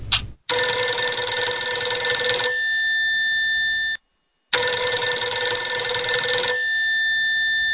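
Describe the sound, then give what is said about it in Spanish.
A house telephone rings twice, each long, loud, shrill ring lasting about two seconds before a fading tail, with a short silent gap between the rings. “Pasaron los minutos y el teléfono de la casa comenzó a sonar.”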